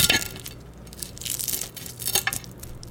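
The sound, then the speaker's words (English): Crisp crackling comes from a knife cutting through the browned, crispy edges of a salted fried egg just taken off the heat. Quiet, irregular crunches and crinkles recur throughout, with no talking. “And listen to this crisp as I cut through. Listen to these crispy edges.”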